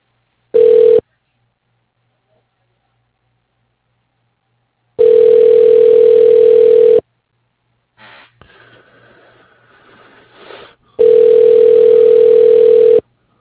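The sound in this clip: A telephone ringback tone while an office call is transferred: three loud, steady, mid-pitched rings of about two seconds each, the first cut short, separated by long silent gaps, with a faint rustle between the second and third.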